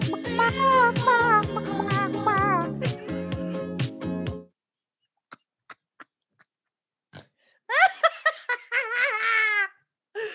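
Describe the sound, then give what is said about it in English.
A grandmother imitates a chicken, with high, warbling clucks and squawks near the end. They follow a long stretch of her voiced vocalizing and a quiet pause broken by a few faint clicks. “A grandma. Chicken. Now she sings a cappella. And then she's a chicken.”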